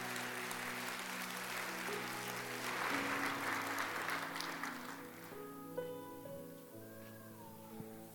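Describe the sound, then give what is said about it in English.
Applause from a church audience welcoming two guests after a sermon. It is a steady wash of clapping over sustained musical tones, and it stops after about five seconds, leaving the music alone. “So as they come, why don't you put your hands together and welcome them?”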